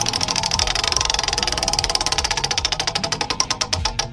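Rapid ticking from a spinning prize wheel at a game segment, a dense run of sharp clicks whose spacing widens as the wheel slows toward the end, heard alone without voices.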